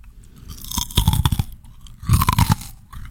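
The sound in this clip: Crisp crunching and chewing of a sugar-topped pastry with orange zest and cinnamon on top, heard in two distinct bouts of rapid, crackly bites separated by a quieter pause, with no talk over it.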